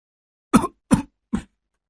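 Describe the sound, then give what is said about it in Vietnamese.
Three short, dry coughs at night, evenly spaced and each sharply clipped, heard alone in silence. “Tiếng ho khủ khủ, lẫn cả tiếng điệu hò ơ, cứ văng vẳng trong đêm.”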